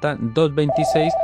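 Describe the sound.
A telephone rings with an incoming call to a radio call-in show, a short electronic ring of several steady pitched tones in quick succession.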